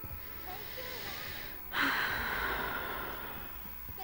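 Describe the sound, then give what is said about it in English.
A deep breath drawn during a calm moment, quiet overall. One breathy surge swells partway through, then slowly fades into low background noise. “Breathe.”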